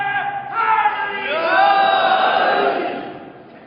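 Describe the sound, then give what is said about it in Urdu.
A gathering of listeners at a religious talk chants a religious slogan in unison. The massed voices swell to a peak midway, then fade. “بےچارے نعرہ لگایا، پورا نعرہ لگائیے، کوئی مجھے اعتراض نہیں ہے۔”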